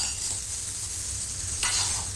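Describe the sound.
Sizzling and stirring from cooking in a home kitchen, a steady hiss of food frying in a pan that grows louder near the end, with no voices.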